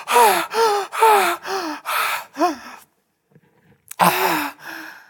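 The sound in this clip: A man's voice imitates a man gasping for breath while being held under water: a rapid run of strained, pitched 'ah' gasps, a short silence, then a couple more loud gasps, heard alone.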